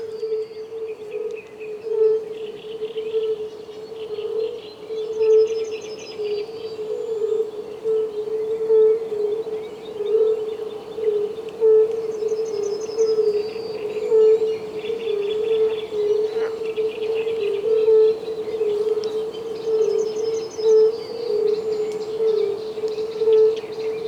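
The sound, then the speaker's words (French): A chorus of fire-bellied toads calls in a steady, low hooting drone with a soft pulsing beat, while faint bird chirps sound intermittently above it. “j'entendais le bourdonnement des sonneurs constamment comme ça dans mes oreilles.”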